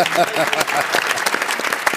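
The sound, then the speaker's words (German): Studio audience applause at a televised football talk show in Munich: dense, steady clapping from many hands that fills the whole short clip at an even loudness. “auch das dann schicken wir aber nochmal Applaus hinterher.”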